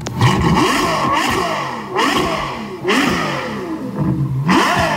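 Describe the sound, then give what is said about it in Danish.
Ferrari sports car engine revving in several bursts, its harmonics climbing sharply with each throttle blip and sagging back between them, loud and continuous with no voices. “Når man taler om Ferrari, så er det oftest den her lyd, man forbinder den med.”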